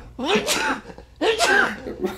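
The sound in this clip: Two sharp sneezes come in quick succession, each a loud, breathy burst with a voiced edge, separated by a brief pause.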